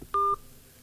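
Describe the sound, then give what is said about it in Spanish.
A telephone call cut off during a regional radio news programme: one short, steady two-tone electronic beep, followed by near silence. “se ha cortado la llamada”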